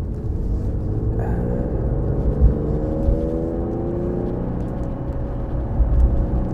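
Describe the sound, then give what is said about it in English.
A car rolls in third gear while slowing into an intersection. Its low engine rumble and whir stay steady, and the engine tones ease slightly lower as it decelerates, with no talk. “Third gear, slowing down into an intersection.”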